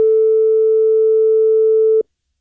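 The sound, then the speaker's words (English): A steady electronic alert tone from an Emergency Alert System holds one even pitch at constant loudness for about two seconds, then cuts off abruptly into silence, with no voices. “So there it was taking over again, and that was the EAS tones starting to fire again.”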